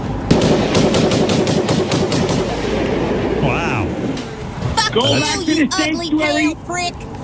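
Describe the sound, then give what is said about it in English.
Rapid gunfire from an AR-15 rifle, a dense rattling burst of shots over the first couple of seconds, with a man talking loudly over it and afterwards. “I got my fucking AR-15. Listen to my gun.”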